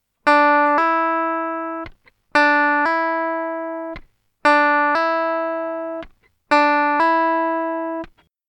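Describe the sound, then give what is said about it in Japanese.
Guitar notes played with the hammer-on technique form four repeated two-note phrases. Each begins with a clear picked note that moves to a second ringing note, then is cut short, with brief silences between phrases. “続いてハンマリングをご紹介します。ハンマーのように弦を叩いて音を出すのでこう呼ばれます。”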